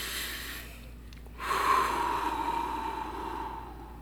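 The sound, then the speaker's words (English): A person taking one deep breath: a soft, airy rush that swells suddenly and then slowly fades, heard alone with no talk. “Close your eyes. Done. Take a breath to center yourself.”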